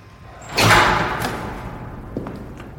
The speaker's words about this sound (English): As I let go and the door slowly closes